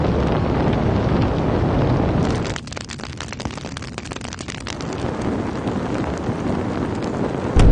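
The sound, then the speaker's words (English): Fire sound effects: a loud, broad roar of flames and rushing fireballs gives way to a stretch of crackling, popping torch-like fire, then the roar builds again and ends in a sudden burst. “Feel the heat with scorching fireballs. Torches. And fire ambiences.”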